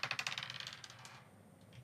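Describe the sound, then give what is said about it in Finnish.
A single die thrown onto a surface makes a faint, quick series of clattering bounces that rattle and die away within about a second, with a soft tap at the end. “No heitäpä mulle yhden nopan laserheitto, eli alle 7. Nyt lähtee.”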